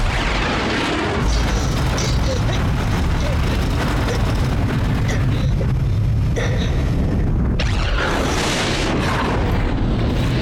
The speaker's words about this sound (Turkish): Vakit yok. Bombayı bırakıyorum. Kahretsin, vuramadım.